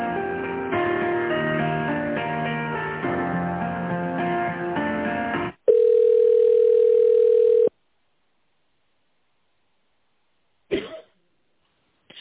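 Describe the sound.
Telephone line tone during a call transfer: a few seconds of hold melody, then a steady single-pitch tone lasting about two seconds. Silence follows, broken by one brief burst of noise near the end.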